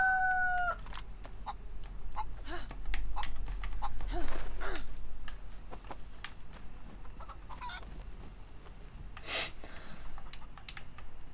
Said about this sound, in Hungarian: Elfutott a csirke.